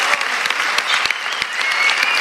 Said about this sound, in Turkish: konuşması salonda uzun süre alkışlandı